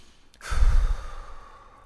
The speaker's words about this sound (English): like I'm breathing again, like that, like right there.